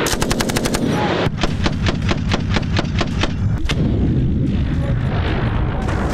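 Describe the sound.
Loud machine gun fire rattles out in several rapid bursts of sharp, evenly spaced shots over a continuous low rumble, with a brief pause between bursts and one isolated shot later.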